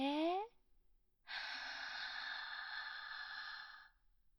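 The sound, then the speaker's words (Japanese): A long, steady breath drawn in during a guided deep-breathing exercise: a soft, airy hiss that lasts a couple of seconds, after a short voiced fragment. “じゃあ一緒にちょっと深呼吸してみましょう。私と一緒に合わせてやってみてくださいね。息を吸って、”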